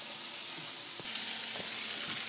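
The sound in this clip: Tomatoes sizzle in a hot pan in a steady, bright frying hiss with a few faint pops scattered through it. No one speaks.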